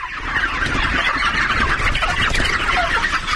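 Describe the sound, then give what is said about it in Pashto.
Dense clucking and chattering from a large flock of about 15,000 white chickens on a poultry farm, a loud, continuous overlapping chorus with no talk. “داد محمد دا مهال په دې فارم کې د شاوخوا 15000 سپین رنګ چرګانو پالنه کوي.”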